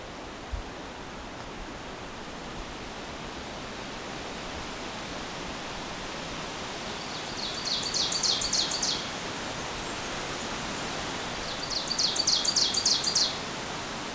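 A Blackburnian warbler gives two brief, very high, thin bursts of song, well apart. Both are faint over a steady hiss of background noise.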